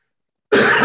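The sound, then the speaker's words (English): A single brief throat clearing from someone with phlegm in the throat comes in abruptly after half a second of silence and sounds loud and rough. “Sorry, I have a bit of phlegm in my throat.”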